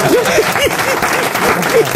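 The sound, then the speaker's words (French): Audience applause at a comedy show, lively clapping from the crowd with voices mixed in over it. “Et ben, c'est beau, non? Vous applaudissez pas?”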